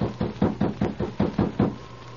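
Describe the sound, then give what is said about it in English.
Sharp wooden knocking on a cabin door, a quick, evenly spaced run of about eight raps at moderate loudness, with no voices. “Sergeant Preston, with King at his side, knocked on the door of Paul Hubbard's cabin.”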